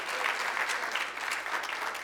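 A church audience applauds in worship, with dense, even clapping held at a steady level throughout.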